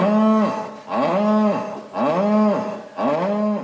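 A cow bellows for her calf after it has been taken from her: four long, loud, harmonic moos in a row, each ending with a downward sag in pitch, with short gaps between calls.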